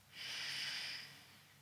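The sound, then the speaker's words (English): A long, deep breath makes one soft, airy hiss that holds steady for about a second before easing off. “So just take another long, deep breath.”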